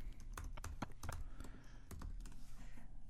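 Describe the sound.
Someone types a search on a computer keyboard: many quick, irregular keystroke clacks in uneven bursts, faint and with no other sound.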